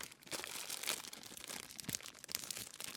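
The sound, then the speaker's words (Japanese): A small pastel-coloured plastic bag holding a birthday gift is opened and handled, giving faint, continuous crinkling and rustling of thin plastic with scattered sharper crackles and no voices. “小さいビニールの可愛らしい袋に、パステルカラーのビニール袋に入ってますが”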